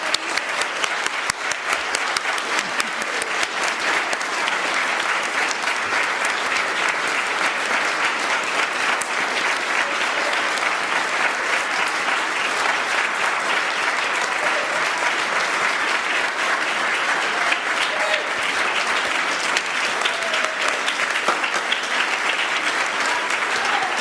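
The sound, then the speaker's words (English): Audience applause, sustained and dense, holding a steady loud level without a break for the whole stretch, with no voices over it. “it's time for applause”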